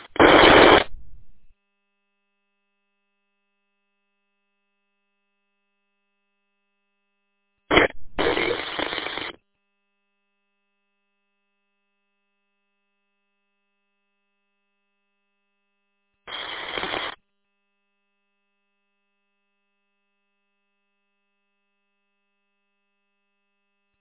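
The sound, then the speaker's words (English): Radio interference on a two-way radio channel as someone keys up the transmitter without speaking: three short, hissing static bursts separated by long silences. “Catching that interference there. Sounds like somebody's keying up without saying anything.”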